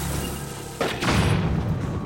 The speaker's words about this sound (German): Ja, Bombe nochmal rein.